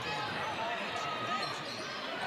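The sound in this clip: A basketball dribbled a few times on court during a game, rhythmic bounces half buried under continuous commentary and crowd noise.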